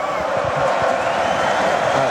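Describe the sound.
A stadium crowd cheers loudly, drowning out a speaker on stage who has just said good evening. The roar is dense and unbroken, with no single voice standing out from it.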